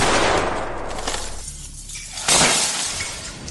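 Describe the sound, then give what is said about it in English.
A gunshot shatters a candelabra and sends it into a curtain, producing a loud, dense burst of breaking and scattering noise that thins briefly, then strikes again with a second sharp crash before trailing off. “You shot the candelabra into the curtain. The place went up in flames.”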